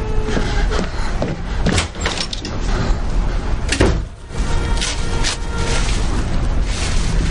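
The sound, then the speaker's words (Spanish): A door slams shut as a man storms out during a tense thriller scene, the sharp thud set within a dense, continuous wash of loud background sound. “sale dando un portazo”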